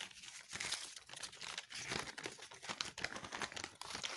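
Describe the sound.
Paper crinkles and rustles as it is pulled out of a bag, a busy run of many crackling bursts that rise and fall in loudness, with no one talking.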